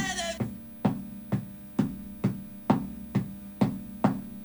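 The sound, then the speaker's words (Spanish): Knocking from a booth upstairs, a steady, evenly spaced run of dull thumps at about two per second, each with a short ringing tail, over a constant low mains hum and no voices. “¡Aflojar el golpeteo, hermano!”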